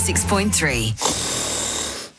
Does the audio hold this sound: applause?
no